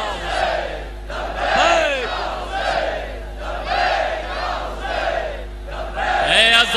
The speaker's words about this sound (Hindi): एक मरतबा मिलके मेरे साथ नारा लगाने का नाम इंशाल्लाह पेश कर रहा हूं।